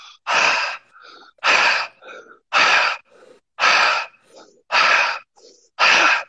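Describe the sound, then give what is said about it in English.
Rapid breathwork breaths: six loud, forceful breathy rushes in a steady rhythm about a second apart, each followed by a softer, shorter breath. “And now we're going to do a last 10 breaths real quick. It will sound like this.”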